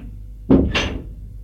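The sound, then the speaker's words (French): Someone knocks on a door and enters, heard as two short, broad thuds in quick succession against a low background rumble. “Elle frappe à une porte et entre.”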